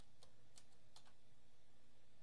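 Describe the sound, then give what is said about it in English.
Typing on a computer keyboard: about five faint, quick key clicks in the first second, followed by a quiet, steady hum. “Go to search. And then go type in Kermy, K-E-R-M-Y.”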